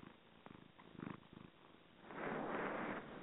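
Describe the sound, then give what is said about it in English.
A cat purrs faintly in a soft, rhythmic, pulsing rumble while writhing around on a table of cards. A louder, steady hiss-like noise takes over for the second half. “I wonder if you can hear her purring.”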